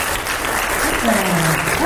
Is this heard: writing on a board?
no